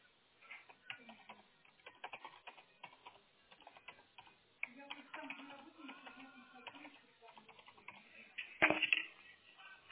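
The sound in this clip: Someone types a text in English on a keyboard: many quick, irregular key clicks, mostly soft, with a louder knock near the end.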